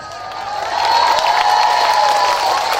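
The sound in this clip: Crowd applause mixed with cheering, a continuous roar of clapping and raised voices that swells after the first moment and stays loud.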